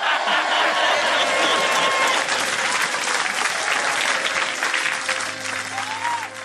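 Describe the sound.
Crowd clapping at a political rally, a loud, thick and sustained roar of many hands that holds strong and then gradually eases toward the end.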